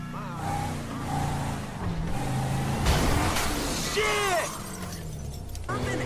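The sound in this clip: Window glass shatters in one sharp, bright burst near the middle as a vehicle is driven through the windows, set against steady engine rumble and people talking.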